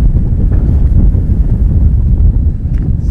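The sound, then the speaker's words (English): Strong, fierce wind on an outdoor walking journey toward Vermont, loudly buffeting the microphone in a continuous low, roaring rumble with constant gusty flutter and no talking. “the wind is really fierce here”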